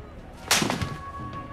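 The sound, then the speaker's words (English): A man slaps a woman across the face: a single sharp, quiet smack, with a little faint rustling after it. “He slaps her.”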